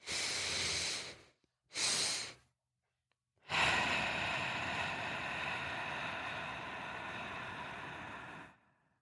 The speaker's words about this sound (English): So when you focus on doing the breath in, and the exhale, you really want to focus on making the exhale longer than any of the two inhales.